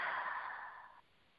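A single slow, deep exhale taken during a guided breathing exercise: a soft, airy, breathy rush that gradually fades and stops abruptly about a second in, heard alone.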